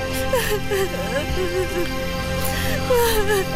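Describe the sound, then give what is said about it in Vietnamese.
A woman sobs and whimpers with wavering high-pitched cries that rise and fall, a continuous weeping voice. “Thôi mà, đừng khóc nữa mà em.”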